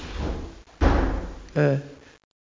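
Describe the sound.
A door closes behind people leaving through a stairwell with a heavy, broad thud, followed moments later by a brief voice.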